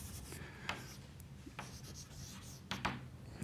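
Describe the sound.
Handwriting during a chemistry explanation, heard as faint scratching strokes in short, irregular bursts with brief pauses between them, alone without talk.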